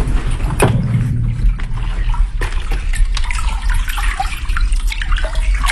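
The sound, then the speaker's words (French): Water flows through an irrigation pipe feeding banana and tomato fields: a loud, steady rushing and gurgling that holds level throughout, with a few brief knocks and splashes. “Ça, c'est l'écoulement de l'eau dans le tube qui sert à irriguer les terres de Faja.”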